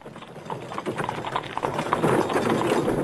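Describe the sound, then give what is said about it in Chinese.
Hooves of a horse-drawn carriage clip-clop in a busy, continuous patter that grows gradually louder over a dense background noise. “一辆马车停下”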